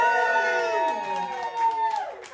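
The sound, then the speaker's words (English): A crowd at a comedy gig called Ping Pong cheers and whoops, many voices rising together in a loud, sustained cry that slides downward in pitch and fades. “So that gives you a bit of an idea of what the crowd were like. They were absolutely marvellous.”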